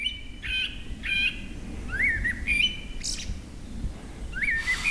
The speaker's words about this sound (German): Eine Runde mit Abendkonzert der Waldvögel.